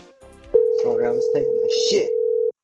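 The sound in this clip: A restaurant telephone gives a steady dial tone, a single unbroken hum of about two seconds that ends abruptly. Talk overlaps the start.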